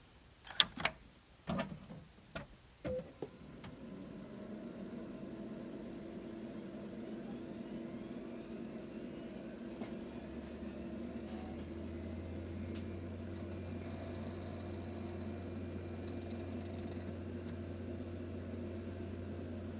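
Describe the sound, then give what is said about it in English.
An Amiga computer starting up: a series of sharp clicks and clunks in the first few seconds, then a steady whirring drone of fans and drive that continues, with a deeper low hum joining about halfway through. “She's a noisy beast when I start her up. Here, let me give you a soundbite of my Amiga starting up.”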